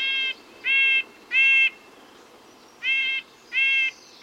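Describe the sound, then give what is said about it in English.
Nasal, buzzy bird calls from native backyard birds (house wren, black-capped chickadee, red-breasted nuthatch): short harmonic bursts repeated in two groups of three, loud and evenly spaced with a gap between groups, no talk. “Hear that? We're hearing native birds, a house wren, black-capped chickadee, and red-breasted nuthatch.”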